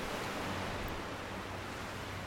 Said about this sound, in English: You can hear the water lapping, and you can also hear people in the background, a dog barking, the wind blowing.